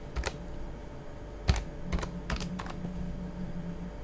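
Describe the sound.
Quiet computer-keyboard typing while installing an audio player, with a few scattered, sharp key clicks spread irregularly over a faint steady hum and no talk.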